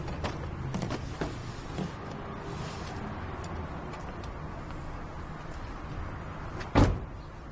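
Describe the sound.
A car door is opened: one sharp, fairly loud clunk near the end stands out over a steady low background rumble, with a few faint clicks earlier.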